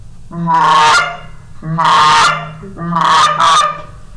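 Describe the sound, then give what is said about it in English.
Three loud, nasal goose honks come in a slow, even rhythm, each a drawn-out call with a brassy tone. The last one breaks into two quick parts. “but then you got a honk, which is a little bit longer cluck.”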